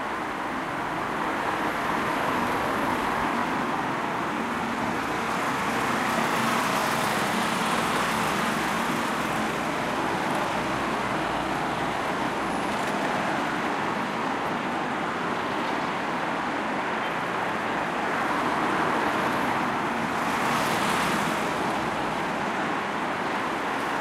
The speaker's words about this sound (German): Wenn wir heute von Gelsenkirchen, Bochum, Hannover oder einer anderen westdeutschen Stadt nach Polen fahren wollen, nutzen wir diese Autobahn.